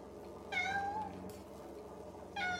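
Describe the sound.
A lean, white, very dirty cat sitting on a cistern cover outside a window meows twice: one drawn-out, mid-pitched call, then a second that starts just before the end, over a low steady hum.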